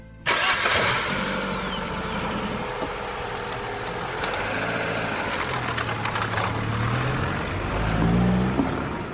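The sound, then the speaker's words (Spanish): A car engine starts outside the front door of a house: a sudden loud burst catches, then settles into a steady, rough idling hum that shifts slightly in tone and swells briefly near the end. “Ana sube al coche y arranca”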